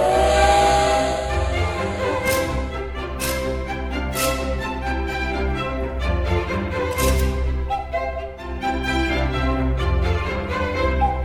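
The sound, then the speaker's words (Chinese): A steam whistle and hissing steam as a train departs: a sustained whistle tone runs throughout, broken by several sharp bursts of hissing steam, with no talking. “音乐故事湾列车即将启动，请到第一月台搭乘。”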